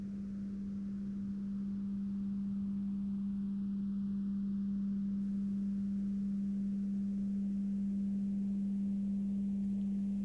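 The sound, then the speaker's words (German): A simple, clear pure tone played into one ear: one low, steady note held unbroken and unchanging throughout, over a soft background hiss. “Als nächstes legen wir einen einfachen, klaren Ton auf ein Ohr. Das klingt so.”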